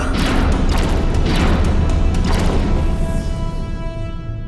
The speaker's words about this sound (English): The particle weapons are being deflected by an energy shield.